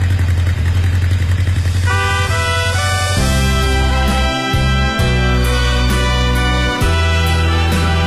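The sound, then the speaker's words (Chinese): Motorcycle engine running with a steady low rumble and some clatter, holding an even loudness for the whole stretch with no talking. “这声音真好听。摩托车回家了，他心里也高兴啊。”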